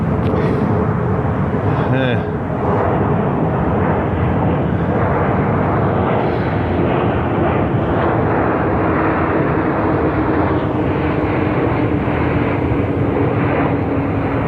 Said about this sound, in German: alle 45 Minuten fliegt ein Flugzeug über mich hinweg.